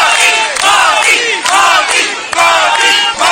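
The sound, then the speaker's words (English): An Indian diaspora crowd at a hotel in Jakarta cheers and chants to welcome Prime Minister Modi. Loud, rhythmic, repeated shouts rise and fall in a steady pulse throughout. “Prime Minister Modi received an enthusiastic welcome from the Indian diaspora upon his arrival at the hotel in Jakarta.”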